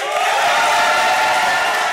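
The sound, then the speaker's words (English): A city council meeting room erupts in cheers after a unanimous vote passing a minimum wage hike. Loud, dense crowd cheering and clapping fill the whole moment as one sustained roar. “But in the end, the council voted unanimously to pass the minimum wage hike, and the room erupted in cheers.”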